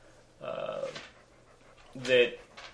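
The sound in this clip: A dog pants heavily, with two faint, breathy bursts of rapid panting separated by a short pause.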